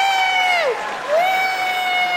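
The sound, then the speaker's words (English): A comedy show audience applauds and cheers in response to a question about being 40 or younger. A loud whooping voice slides down in pitch, breaks off, then rises again over a steady bed of clapping and crowd noise. “How many people here by applause are 40 or younger? 40 or younger, applaud.”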